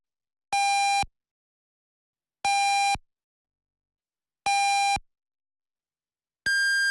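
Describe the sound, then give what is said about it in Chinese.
Radio hourly time signal beeps: three identical short tones spaced about two seconds apart, then a fourth tone at a higher pitch, each ringing out alone against silence. “安徽经济广播主持人宣晓为您报时，现在是北京时间17点整。”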